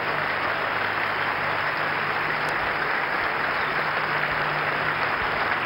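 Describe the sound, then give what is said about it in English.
An audience applauding during a church service, with dense, even clapping that stays loud and steady for the whole clip. “Make it louder. That's not enough for my Lord. Put your hands together for Jesus.”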